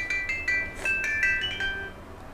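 A phone rings with an incoming call, playing a faint, high electronic ringtone melody of short repeating notes that step up and down over a low hum.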